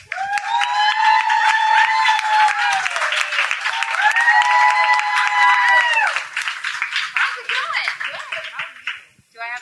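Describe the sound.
Applause and cheering greet a guest arriving in a country radio studio: dense, continuous clapping with voices calling out over it, loud and steady before thinning toward the end.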